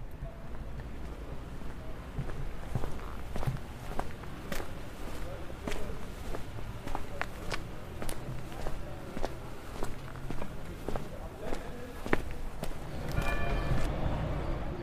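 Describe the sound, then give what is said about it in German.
Footsteps of a person walking through a town toward the town hall square: a steady run of many even, moderately loud steps over a constant low outdoor rumble. “Denn jetzt spazieren wir mal gemeinsam ein paar Meter vor zum Rathausplatz.”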